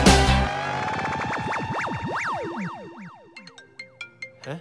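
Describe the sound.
A mobile phone ringtone announces an incoming call: a loud, bright electronic melody of rapidly rising and falling synth tones, then a few short plucked notes, heard alone.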